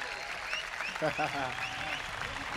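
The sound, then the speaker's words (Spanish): Applause for dancers, a steady patter of clapping heard under a voice speaking. “un aplauso para las bailarinas”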